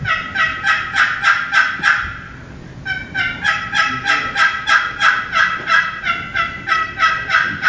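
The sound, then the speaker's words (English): A wooden box turkey call, its lid scraped across the sideboard, mimics a turkey gobble: a rapid burst of raspy, honking yelps, a short pause, then a longer, evenly rhythmic run of the same loud, nasal strokes. “And you can mimic what a turkey does.”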